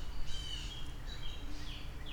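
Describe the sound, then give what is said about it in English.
Small birds calling in agitation near owls: a few faint, thin high chirps and tweets over a steady low rumble. “And there's a lot of little birds who are getting upset now.”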